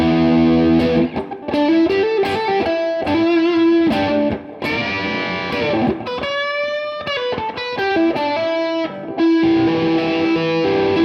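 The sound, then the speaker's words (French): Electric guitar with the overdrive turned all the way up, fully saturated and buzzing loudly. Single notes and short melodic runs still ring out distinctly through the dense distortion, with no voices. “là, je remets le drive juste à fond pour abuser. Hop là. Là on a une saturation voilà, à fond. Voilà, saturation à fond et on entend les notes.”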